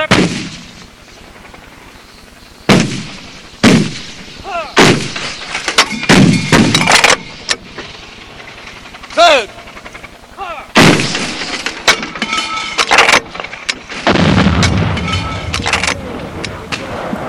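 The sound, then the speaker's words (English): Artillery fire: many loud, booming blasts at irregular intervals, some in quick clusters and others spaced by quieter gaps, each with a rumbling decay. “But when artillery arrives, when it drops down Charlie's throat, it's the most beautiful, ugly sound in the world.”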